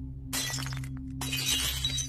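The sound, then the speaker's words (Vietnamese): A jar dropped and shattering: a bright, crashing burst of breaking glass with a second scattering of shards shortly after, over a steady low hum. “buông cái hũ rơi xuống đánh xoảng một tiếng. Âm thanh đổ vỡ vang vọng trong đêm.”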